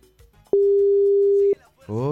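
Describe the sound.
A telephone call rings with no answer, heard as a single steady, even ringback tone lasting about a second. Faint background sound comes before it, and a voice begins speaking just after it ends.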